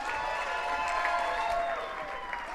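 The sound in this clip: An audience claps steadily to welcome a speaker onto a TEDx stage, a dense, even wash of applause that stays loud and unbroken from start to end.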